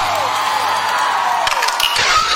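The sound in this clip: Audience cheering for a Brazilian singer at a show, a continuous crowd roar with whoops and shouts, joined by a flurry of clapping in the later part.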